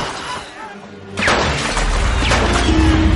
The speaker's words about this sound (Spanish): La chimenea de proa se desploma hacia adelante aplastando a Fabricio y a la gente que nada.